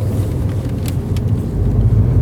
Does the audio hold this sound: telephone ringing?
no